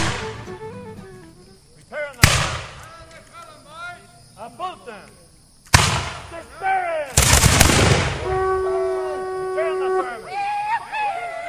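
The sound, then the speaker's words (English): Gunfire from historic reenactors staging the bloody 1740 battle of Fort Moses: a few loud, sharp shots crack out amid shouting voices and battle commotion, with a dense burst of blasts near the end. “That's the sound of historic reenactors as they present the bloody battle of Fort Moses from 1740 for a modern audience.”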